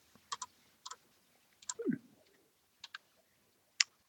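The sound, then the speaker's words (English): Sparse clicks of fingers typing on a computer keyboard, a few faint, irregular taps with pauses between them and a brief low rustle near the middle. “I have to type it into my computer to make sure I have it right.”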